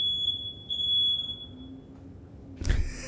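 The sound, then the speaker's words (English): A smoke alarm beeps with a high, piercing electronic tone that pulses for under two seconds, followed by a pause and then a single sharp knock. No one speaks. “I don't know what that was. That was a smoke alarm.”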